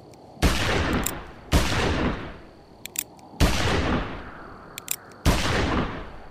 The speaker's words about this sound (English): I'll return his fire.